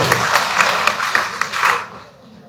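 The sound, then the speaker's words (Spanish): Applause from an audience at a political rally in Bolivia, a brief burst of rhythmic clapping that stops abruptly after about two seconds. “Eso, aplauso”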